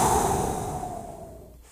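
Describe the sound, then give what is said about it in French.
People catching their breath together, heard as one long, airy exhale that starts loud and gradually fades away. “On reprend notre souffle, tout le monde ensemble.”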